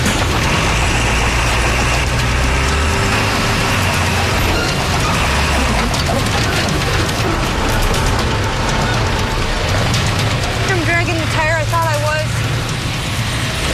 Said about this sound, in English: I'm gonna try to move this trailer. Come on, baby.